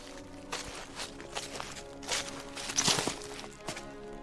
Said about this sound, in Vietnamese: Tiếng bước chân dẫm lên lá khô, tiếng soạt soạt vang lên, nghe rõ lắm.